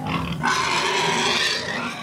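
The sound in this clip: Pigs squeal and grunt over food in a continuous, loud, shrill, harsh squealing with rough grunting underneath, lasting the whole moment without pause.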